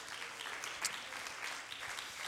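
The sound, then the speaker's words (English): A church audience claps their hands, a faint but continuous patter of many hands with one brief louder clap near the middle. “Clap your hands unto the Lord.”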